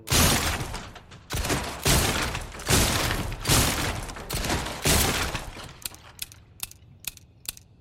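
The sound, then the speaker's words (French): Gunfire in the Resident Evil 4 VR zombie shooter on PSVR 2: several heavy, loud blasts come in a rapid series, followed by a run of short, sharp mechanical clicks. “Bon, bah, je vais tirer comme ça.”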